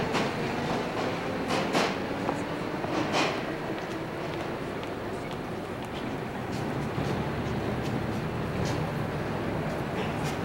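A passing train gives a steady, rolling rumble of rail noise that stays even throughout, with a few brief, sharper bursts of higher-pitched clatter near the start.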